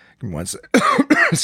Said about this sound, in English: My throat's fucked. My sinuses are screwed. I'm coughing.